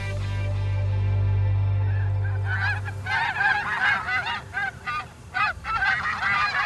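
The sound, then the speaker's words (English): Honking from a flock of geese flying overhead: many loud, overlapping nasal honks in an uneven chorus, with no talk. “As you listen to that noise, it's easy to conjure up an image of a graceful flock of birds skimming overhead.”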